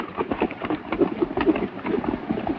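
Horses gallop with riders as fugitives flee a pursuing gang across rocky, arid ground: quick, uneven hoofbeats of several animals, a continuous patter of sharp thuds at moderate loudness.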